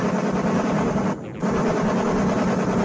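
Gunfire from a 1990 arcade shooting game with a fixed screen and a view from behind the player, heard as dense, continuous rattling bursts that pause briefly near the middle and then resume at full loudness.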